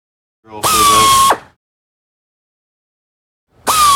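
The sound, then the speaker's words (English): An air drill bores holes in a door strike plate, giving two loud, high-pitched whirring bursts with a steady whine; the second burst is cut off at the end. “Yeah, that's the strike plate. Yeah. And then he drills the holes.”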